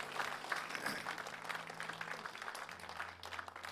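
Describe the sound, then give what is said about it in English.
Applause from a church audience: steady, moderate clapping that continues throughout and thins slightly near the close. “Hey, can we put our hands together? Thank you so much.”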